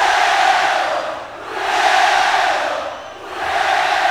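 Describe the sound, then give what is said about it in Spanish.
A concert audience at a symphonic rock show chants loudly in unison, the massed voices swelling and dipping in waves across the whole stretch. “Cuando el público empieza a entonar cánticos europeos, que se oiga con huevo. Con huevo.”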